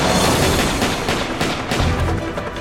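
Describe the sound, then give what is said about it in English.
Exchange of gunfire between two police officers and an armed offender beside a squad car: a few sharp shots stand out over a dense, rough noise bed, moderately loud and steady throughout. “his partner dodge a furious spray of bullets. Both men return fire”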